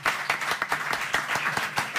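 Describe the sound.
Audience applause for a contestant on a quiz show, with many sharp hand claps in a quick, uneven patter at a fairly soft level.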